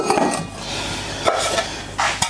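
Running water rushes steadily as a part of a stainless-steel juice extractor is rinsed, with a few light knocks and clinks against the steady wash.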